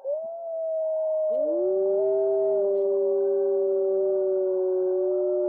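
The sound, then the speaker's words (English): Wolves howling: several long, smooth howls overlap, with a second voice joining the first and pitches sliding and wavering. The sustained chorus is loud and clear, with no other sounds. “Little wolves howling there.”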